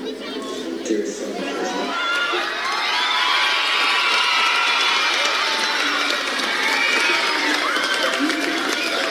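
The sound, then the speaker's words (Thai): Students crowded across the floors, balconies and stairways of a packed school building cheer and shout, a high-pitched roar of young voices that swells after a quieter start and stays loud. “นักเรียนจับจองที่นั่งกันตั้งแต่เช้าบางคนต้องขึ้นไปยืนที่ระเบียงรวมไปถึงทางเดินบันไดแน่นไปด้วยผู้คนนะครับตั้งแต่ชั้น1ชั้น2แล้วก็ชั้น3ส่งเสียงเฮทุกครั้งที่เนเน่ได้รับคำชมจากกรรมการ”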